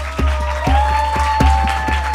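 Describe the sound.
A crowd applauds a band at an Italian event, steady even clapping over a constant low hum and a sustained tone.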